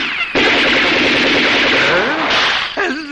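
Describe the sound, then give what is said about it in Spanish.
Gunshots with bullets ricocheting and car tyres bursting in a 1979 science-fiction film scene: a loud, dense barrage that fills almost the whole clip, laced with whining ricochet sweeps, before it breaks off near the end. “Los dos hombres le disparan, pero las balas rebotan en su cuerpo y acaban reventando las ruedas.”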